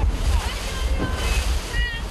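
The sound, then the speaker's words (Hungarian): Strong wind and waves at a youth sailing race: a loud, continuous roar of wind buffeting the microphone, mixed with rushing, sloshing water throughout. “Az erős széllel és a hullámokkal is meg kellett küzdenie a gyerekeknek.”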